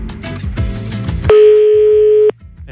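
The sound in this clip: A single unanswered telephone ring: one steady, sustained electronic tone lasting about a second that cuts off abruptly, preceded by a short stretch of other, busier sound.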